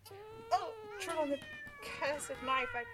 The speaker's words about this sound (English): Oh, gods. The cats.